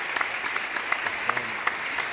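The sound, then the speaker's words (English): Applause for a live rap performance, a quiet continuous wash of clapping with several sharper individual claps standing out at irregular moments. “Round of applause for for that whole entire”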